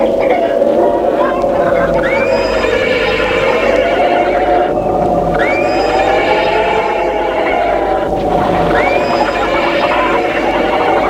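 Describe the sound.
A horse neighs beside a carriage, giving three loud whinnies at regular intervals over a steady sustained tone and low rumble.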